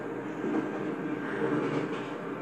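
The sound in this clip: Steady, low rumble from inside a crowded moving train, a continuous roar with slight swells and no clear voices.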